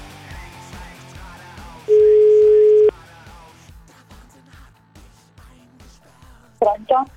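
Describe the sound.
A telephone tone sounds while a phone call is being placed: one steady, loud, mid-pitched beep about a second long, heard over background music with a regular beat.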